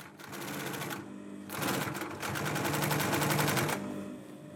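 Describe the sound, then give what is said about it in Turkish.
A sewing machine stitches a second seam line on a cushion, with a rapid, steady mechanical rattle that runs almost the whole time and grows slightly louder and denser partway through. No voices are heard. “diğer makinede dikeceğim. Böylece tıpatıp iki tane dikiş çizgimiz olacak.”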